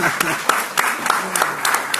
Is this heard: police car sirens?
no